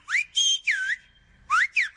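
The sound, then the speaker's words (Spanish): Whistled speech of the Canary Islands, the silbo gomero language, carries as a series of about six shrill whistles with gliding pitch contours, arranged in two groups separated by a short pause and with no talking. “El silbo gomero es un lenguaje silbado practicado por algunos habitantes de Canarias para comunicarse a través de sus barrancos.”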